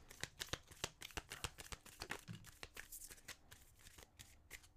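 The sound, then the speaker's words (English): Crystal and gemstone oracle cards are shuffled and handled, giving many quick, crisp riffling flicks and soft papery slaps in an irregular rhythm, faint and with no talk. “Let's get into the crystal slash gemstone cards.”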